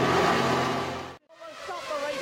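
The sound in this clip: Formula One cars roar at the start of the 1997 Belgian Grand Prix. The loud, sustained engine noise lasts just over a second, then cuts off abruptly and gives way to a voice speaking.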